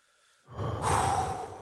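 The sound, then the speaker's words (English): A single deep, slow breath taken to relieve stress: one long, loud, airy rush of breath that starts suddenly and holds steady to the end, with no talk. “Number one is breathe. You know, those deep, you know, those deep breaths, not the short breaths”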